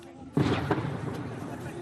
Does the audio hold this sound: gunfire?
yes